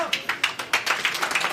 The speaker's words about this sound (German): Beifall für die Evi Strehl.